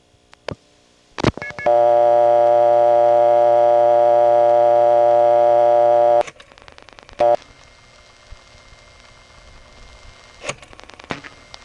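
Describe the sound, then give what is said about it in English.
Telephone line sounds from a 1977 local call on a Brooklyn payphone served by the panel switching system: a few sharp clicks, then a loud, steady buzzing tone of about four and a half seconds, then more clicks over faint line hiss. “Here is a local call made from a Brooklyn payphone that is served by the panel switching system in 1977.”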